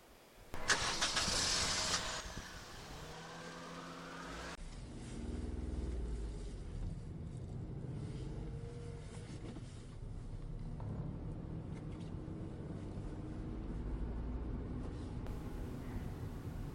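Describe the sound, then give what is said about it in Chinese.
A car engine outside starts with a loud burst near the beginning. It then settles into a steady, low running rumble that carries on to the end without voices. “你看，外面有车了”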